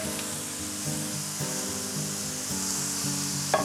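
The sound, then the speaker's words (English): Steak searing in a dry, oil-free pan over very high heat gives a steady, bright sizzling hiss. The sizzle stays even throughout, with soft background music playing underneath. “So I have a pan on high heat, super high, no oil, just dry. And I'm dropping my steak straight into the pan.”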